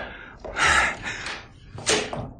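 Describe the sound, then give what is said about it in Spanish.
A door to a room in an old house slams shut in a radio drama of The Invisible Man, heard as two loud, sharp bursts separated by a quieter gap. “Pero no me dio tiempo a entrar. La cerró al instante de un portazo.”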